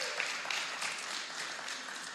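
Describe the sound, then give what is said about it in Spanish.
Audience applause for visiting friends from far away at a Spanish-language gathering: a dense, steady wash of many hands clapping, evenly loud throughout with no voices over it. “Un aplauso a nuestros amigos que vienen desde tan lejos.”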